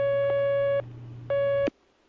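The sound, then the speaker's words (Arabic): Telephone line tone for an incoming call to a religious phone-in question session: two steady electronic beeps, each just under a second long, separated by a short gap, over a low constant hum. “اتصال آخر.”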